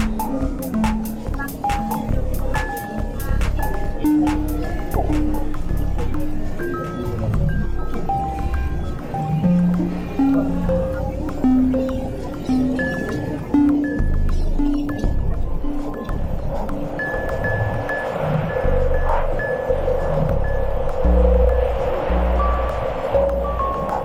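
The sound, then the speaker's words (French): Midday bustle on rue Saint-Denis with crowded sidewalks, a dense, continuous din of overlapping conversations and street activity, fairly loud and unbroken throughout. “Au bout, vers la droite, on remonte la rue Saint-Denis. Oui, la droite. C'est l'agitation de la rue Saint-Denis. Les conversations dans le brouhaha du midi. Les trottoirs encombrés.”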